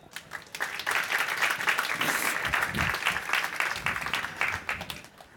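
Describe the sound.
Applause from an audience at a book event welcoming a speaker onstage: dense, steady clapping that holds for about five seconds before thinning out at the end.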